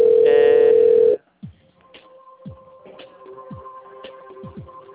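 Steady telephone line tone heard while calling a pharmacy chain's customer service line. The single loud, even beep holds for about a second and cuts off, leaving faint, softer tonal sounds.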